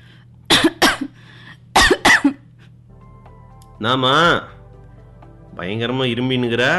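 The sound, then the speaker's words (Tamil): Coughing from a throat infection blamed on a dust allergy: four harsh, loud coughs in two quick pairs, followed by a person speaking briefly. “Dust அலர்ஜினா, தொண்டை ஃபுல்லும் ஒரே infection, அதனால தான் இரும்பிட்டு இருக்க”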